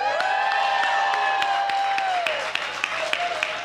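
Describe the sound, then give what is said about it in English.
A live audience at a festival cheers and applauds on cue: dense clapping with whoops and shouts, plus a few sharp individual claps standing out as the noise thins slightly near the end. “everybody cheer, okay? Everybody get that?”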